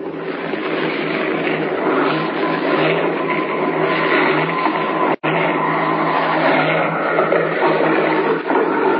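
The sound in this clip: Steady, loud airplane engine drone as a plane comes down to land beside railway tracks with oil smeared over its window. The roar holds even throughout, broken only by one brief cut-out partway through.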